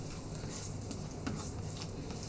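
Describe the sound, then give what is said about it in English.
An egg frying in heated olive oil for bibimbap: a faint, continuous sizzling hiss with scattered small crackles and pops, with no voices over it. “So a little olive oil, and then we're going to fry our egg and then assemble.”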